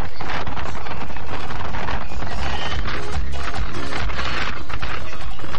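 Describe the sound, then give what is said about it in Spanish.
Strong wind in Los Angeles roars loudly and continuously against the microphone, a dense, buffeting rush with no pauses. “Hoy harto viento en Los Ángeles.”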